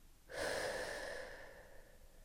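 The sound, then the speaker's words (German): A deep, forceful breath during a guided belly-breathing exercise: one long, airy rush that swells quickly, holds for about a second, then fades away. It is heard alone, without talk. “Noch einmal ganz tief in deinen Bauch einatmen. Füll auch deine Lungenflügel und atme noch einmal ganz kräftig wieder aus.”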